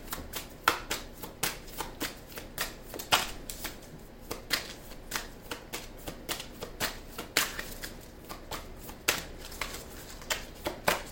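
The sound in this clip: Tarot cards being shuffled: many rapid papery riffles and flicks in uneven bursts, continuing steadily with no talk.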